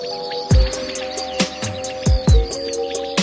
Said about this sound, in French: dans cette zone de colza avec une petite prairie, là, c'était très commun, la caille des blés. Et puis beaucoup de grillons aussi, les champs des grillons, ça prenait tout l'espace.